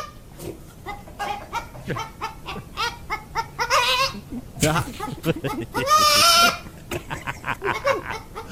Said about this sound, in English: we haven't had a good goat tape in a while. And is a baby goat that sounds like a chicken.